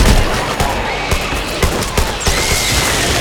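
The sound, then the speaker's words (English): Video game gunfire in a shooter fighting flying enemies: loud, rapid bursts of shots crackling over a constant noisy battle din, many sharp reports in irregular clusters throughout. “Shoot those flying things. Reloading. Got him.”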